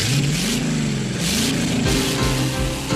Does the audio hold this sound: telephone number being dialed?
no